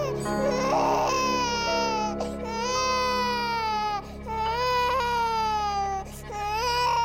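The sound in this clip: An infant cries in a crib in a nursery: a few long, loud wailing cries, each separated by a brief catch of breath, steady and insistent.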